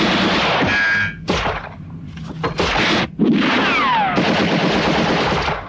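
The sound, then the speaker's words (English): Heavy gunfire in a firefight between soldiers and guards shooting from a rooftop and a building's end. Loud bursts of automatic fire and sharp shots follow one another almost without pause, broken by a few short gaps. “More guards shoot at Mike and Lewis from a rooftop. At the end of the building, Bopper and Woods exchange fire with other guards.”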